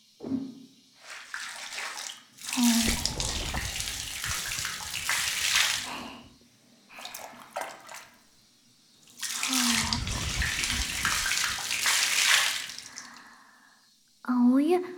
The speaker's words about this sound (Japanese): ブラッシングの次はお湯で軽く洗うね。